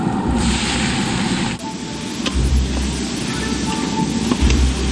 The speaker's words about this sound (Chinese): 一点干辣椒，将火锅底料炒出红油， 再将虾倒进去，